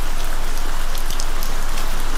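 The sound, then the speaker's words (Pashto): Heavy rain pouring down in a loud, steady, dense hiss of countless drops striking surfaces, unbroken and even throughout. “باران تیز شو، داسې شرشورې شو لکه ناوې چې له اسمانه راخوشي شي.”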